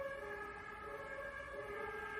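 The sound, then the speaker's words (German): Emergency vehicle sirens sound faint and steady, a sustained tone with strong harmonics holding on throughout with no talk. “Jetzt schon wieder diese Sirenen.”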